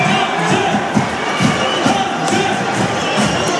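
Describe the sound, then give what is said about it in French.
Agen rugby home crowd cheering and roaring at Stade Armandie: a dense, steady wash of many voices with scattered louder shouts rising out of it throughout. “les Agenais, vous les entendez, ils vont être un peu réveillés par leur public pour leur première Armandie.”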